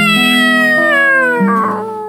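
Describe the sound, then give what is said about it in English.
A cat meows three times in quick succession, loud, tonal cries that run into each other, with the pitch sliding slightly downward across the sequence. “And the cat said, meow, meow, meow.”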